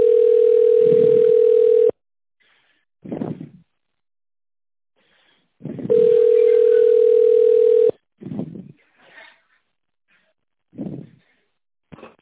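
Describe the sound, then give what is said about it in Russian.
A telephone ringback tone plays while a call waits to connect to a secretary: two long, steady, mid-pitched beeps of about two seconds each, separated by a pause of roughly four seconds, with faint muffled noises in between. “Для соединения с секретарем оставайтесь на линии.”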